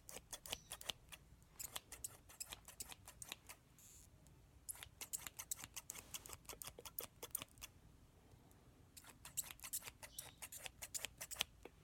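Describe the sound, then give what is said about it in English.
Scissors trim excess hairs from a man's beard during a grooming shave, making many quick, crisp snips in a fast irregular rhythm. There is a brief pause partway through, and no talking. “I'm just going to start off by trimming any excess hairs from your beard.”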